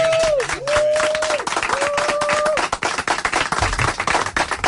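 Dense clapping and applause from staff gathered in a radio newsroom, loud and continuous throughout, with a few sustained whistle-like tones over the first half before the clapping grows more ragged toward the end.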